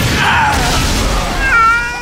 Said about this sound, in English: behave yourself, bad kitty!